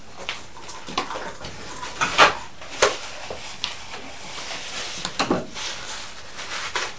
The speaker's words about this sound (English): Shall I help myself to tea? Yep. Right. And a little sugar. A little bit of sugar.